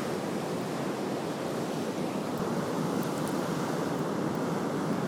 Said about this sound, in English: Either I'm sitting down by the beach listening to the roar of the ocean, you can maybe hear it,